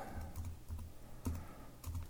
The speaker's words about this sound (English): let me see if I can. I'll type this in real quick